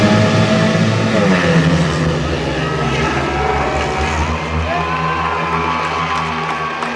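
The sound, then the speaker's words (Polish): Speedway motorcycles roar at a second-tier Speedway Ekstraliga meeting at Poznań's Golęcin stadium on a sunny day, a loud sustained engine drone mixed with continuous crowd cheering and noise. “Słyszeli Państwo te odgłosy, huk żużlowych maszyn, ale także radość kibiców.”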